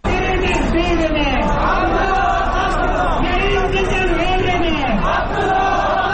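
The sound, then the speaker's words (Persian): Crowd of thousands of protesters marching in Kabul in support of Abdullah Abdullah at an election-fraud protest, chanting and shouting loudly and continuously throughout. “هزاران تن از طرفداران دست انتخاباتی عبدالله عبدالله روز جمعه در کابل راهپیمایی کرده و خواهان این شدند تا کمیسیون مستقل انتخابات آرای را که آنها تقلبی و جعلی می خوانند باطل کند.”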